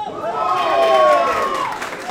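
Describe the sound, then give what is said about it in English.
Fans cheer at a hometown game, a sustained crowd roar topped by a prominent voice whooping in a long rising and falling call, staying loud throughout. “Cheering fans.”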